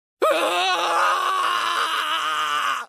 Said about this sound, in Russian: Мучительный крик эхом разлетелся во все стороны.